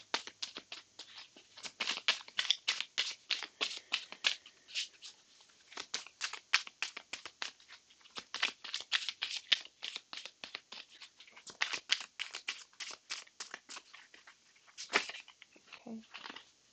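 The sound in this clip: Tarot cards being shuffled and drawn during a full moon reading: many quick, crisp papery flicks and riffles in an uneven patter that runs throughout, with no talk.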